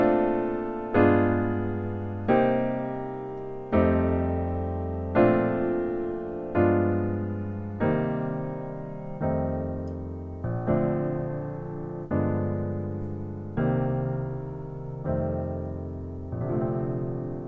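Slow chord progression through inversions of a 1-6-2-5 cadence, with C voiced at top and bottom, resolving on a B flat major 9 chord: around a dozen rich, sustained chords struck one after another at an even pace, each ringing and fading.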